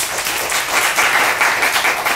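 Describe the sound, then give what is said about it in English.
An audience applauds to welcome a professor arriving to give a speech. The clapping is steady and dense throughout the short stretch, with no voices over it. “So let us give our warmest welcome to Professor Bullock to today's speech. Welcome.”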